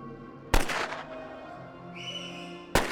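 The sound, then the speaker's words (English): Two sharp, loud gunshots ring out, fired by drunken Nazi soldiers after surrender. They are spaced about two seconds apart, with a quieter rumble and a thin whistling tone between them. “After surrender, the Nazis were drowning their sorrows with alcohol when they started drunkenly firing.”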